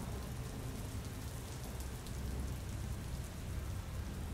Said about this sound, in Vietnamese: Trời bắt đầu đổ mưa tầm tã